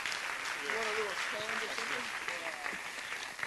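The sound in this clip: A church audience on the North Coast on its feet applauding Pastor Paul Hubbard as he comes up to preach: dense, even clapping throughout, with voices calling out over it.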